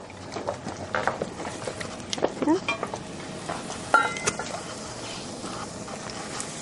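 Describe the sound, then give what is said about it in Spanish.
Chicken broth added to a hot cooking pot sizzles and bubbles in a steady, dense hiss, with stirring and a few light clinks of utensils against the pot. “Sí, le vamos a añadir caldo de pollo.”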